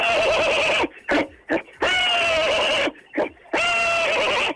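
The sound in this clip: A caller's voice imitates a horse neighing, giving three long, loud, quavering whinnies. Short snorting bursts separate them.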